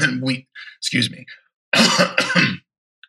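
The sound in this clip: A man with something stuck in his throat coughs and clears it in a few harsh, partly voiced bursts separated by short pauses.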